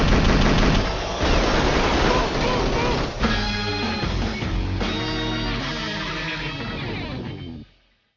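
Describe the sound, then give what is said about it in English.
Sustained gunfire as police officers shoot their way out, a dense, loud barrage of rapid shots lasting several seconds before cutting off abruptly. “We're shooting our way out of here, bro. Okay. On three, dude. You're gonna empty your mag and run.”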